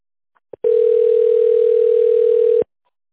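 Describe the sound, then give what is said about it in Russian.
A telephone line tone plays while a caller holds to be connected to a secretary: one loud, steady hum lasting about two seconds, with a brief click just before it. “Для соединения с секретарем оставайтесь на линии.”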